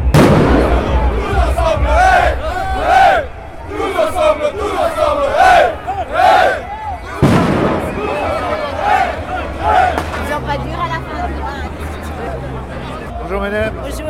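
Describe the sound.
Protesters at a joint union demonstration shout and chant in a loud, dense crowd roar with rhythmic rising cries. A sharp bang cuts in midway, and voices and babble continue throughout.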